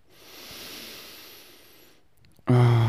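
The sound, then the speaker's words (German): A deep breath drawn in slowly: a soft, airy hiss that swells and fades over about two seconds. A short silence follows, then a voice begins loudly. “Und deswegen, lass uns einen tiefen Atemzug nehmen.”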